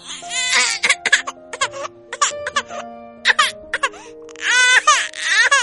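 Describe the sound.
A little boy crying: loud, broken bursts of wailing and whimpering with wavering pitch and short sobbing gaps, rising again into a longer wail near the end.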